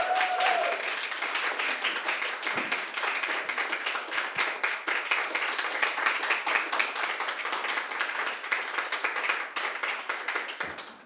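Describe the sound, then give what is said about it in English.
An audience applauds steadily as a band is welcomed to the stage, with dense, continuous clapping that holds an even level throughout. “So while you're clapping, I'm going to move the microphone.”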